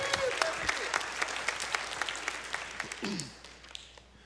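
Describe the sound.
An audience applauds to welcome a guest invited up to speak, with many hands clapping in a busy, sustained patter with sharp individual claps standing out, easing slightly toward the end.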